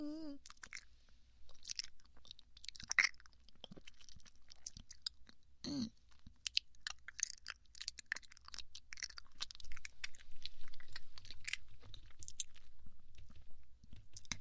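Chewing of osmanthus cake, an offering cake, made up of many small wet crunches and smacks in an irregular rhythm. The chewing is moderately faint and steady, with no talk.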